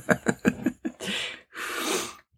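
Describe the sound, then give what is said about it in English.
A dog snorts and sneezes while rubbing its face on the floor: a quick rhythmic run of five short snorts, then two longer, loud, breathy blasts. “We do have a podcast dog in the studio with us, so if you hear copious amounts of sneezing, that is our dog rubbing his face on the floor.”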